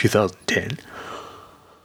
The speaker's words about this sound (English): Excuse me. Jeez. Yawning on my own podcast.